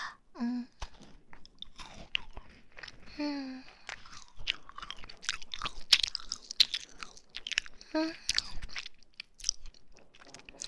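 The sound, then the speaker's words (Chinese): A person chewing food, with many moist, crunchy bites in an irregular rhythm, broken by a few short hummed vocal murmurs. “为了防止你吃的太快，就我吃一口。啊，那我先吃了。”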